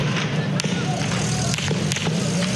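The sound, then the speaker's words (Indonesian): Gunfire cracks out as protesters flee an anti-government demonstration in Baghdad, with a few sharp bangs standing out against a constant rumble of crowd noise and voices. “That's the sound of gunfire as protesters run away Thursday.”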